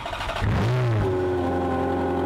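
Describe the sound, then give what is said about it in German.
Engine of a limited-edition Ferrari Scuderia sports car revving: a loud, rough growl climbs in pitch, then settles into a sustained high, steady drone. “Ein Ferrari 403 Scuderia limitierte Auflage.”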